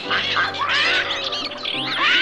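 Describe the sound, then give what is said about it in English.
A group of birds brought into a choir practice squawks and chirps loudly, with several overlapping bright, warbling calls that bend up and down and continue without a break. “Wait a minute. You can't bring all those birds in here.”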